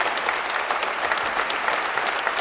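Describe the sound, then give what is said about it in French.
The faithful applaud newly committed hospitallers at a Basque-Béarnais pilgrimage. Many hands clap in a thick, even patter that stays constant from start to finish. “Les hospitaliers se tournent maintenant vers les fidèles qui les applaudissent.”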